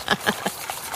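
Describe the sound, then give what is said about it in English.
A whisk beats a batter of milk and flour in a bowl. Several quick, rhythmic strokes produce soft tapping and swishing, fairly faint. “So you're just whisking up the other mixture, the milk, the flour.”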